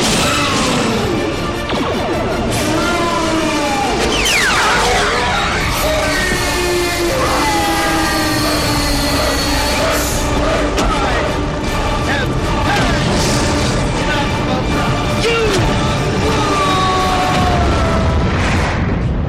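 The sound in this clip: Starship weapons fire during an attack on the Enterprise in Star Trek, a dense and continuous stream of loud crashes, booms and mechanical clatter laced with sweeping electronic tones.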